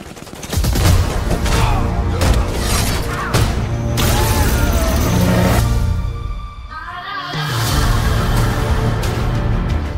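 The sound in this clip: Heavy gunfire from a volley fired at will forms a loud, dense barrage of many overlapping shots. It drops briefly near the middle, then resumes at full force.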